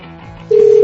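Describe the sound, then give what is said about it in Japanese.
A single steady mid-pitched telephone tone sounds for about a third of a second after hanging up, before redialing, then cuts off abruptly over a faint low hum. “現在呼び直し中。”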